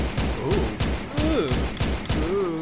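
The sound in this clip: Gunfire imitated by a voice: a rapid string of many sharp, breathy shooting bursts in a fairly steady rhythm, with pitched vocal sounds woven between them.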